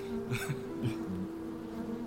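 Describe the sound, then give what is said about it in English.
A queen bee buzzes inside a cage, producing a faint, steady, low hum that holds level throughout. “By the way, the queen bee is still in the cage. You haven't let her out yet.”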